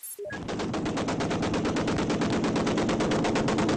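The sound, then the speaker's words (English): Automatic gunfire as rebel fighters come under fire from pro-Qaddafi troops while pushing into the Libyan oil port of Brega, a loud, continuous rapid rattle of rounds that runs without pause after a brief opening. “The sound of rebel fighters coming under fire from pro-Qaddafi troops as they pushed into the oil port of Brega this morning.”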